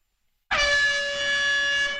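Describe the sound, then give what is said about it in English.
A single air horn blast bursts in after a brief silence and holds loud and steady for about a second and a half, with a bright, brassy tone rich in overtones. “Oh, that's the siren. You know the air horn means.”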